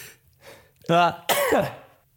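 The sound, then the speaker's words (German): A sneeze in two parts: a short voiced lead-in, then a louder, noisy burst that trails off quickly, with nothing else around it. “Oh, warte mal, ich muss kurz niesen. Ja, schon wieder.”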